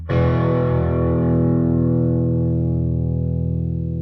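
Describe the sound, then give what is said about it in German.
Medium crunch distortion from a 10-watt studio guitar amplifier: a single chord is struck and rings out, thick and buzzing with harmonics, sustaining and slowly fading over several seconds. “ich stelle mal gleich so einen mittleren Crunch-Sound ein am besten, dass du mal merkst, was der da so kann.”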